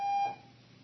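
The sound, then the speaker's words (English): A fire alarm gives a single short, high, steady beep, then fades to a faint quiet tail. “We have a fire alarm.”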